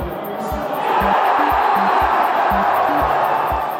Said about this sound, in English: That's the sound of friends and strangers gathered together to watch the World Cup on TV.